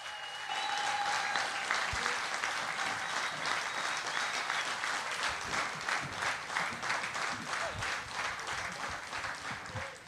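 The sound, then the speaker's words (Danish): An audience applauds two performers on stage with loud, steady clapping that lasts about ten seconds and eases off slightly near the end. “giv en stor hånd til Uffe Holm og Torben Chris.”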